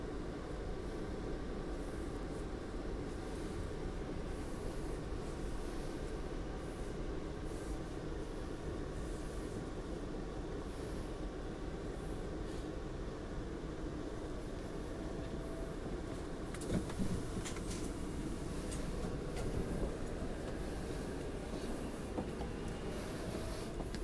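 A train runs on rails, with automatic speeding up and slowing down to keep spacing between trains. A steady, faint rolling rumble continues throughout, with a brief clatter about two-thirds of the way in.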